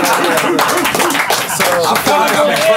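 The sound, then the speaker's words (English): An audience claps and cheers in a steady burst of applause mixed with raised voices and whoops, loud throughout. “All right, let's make some noise for us getting schooled.”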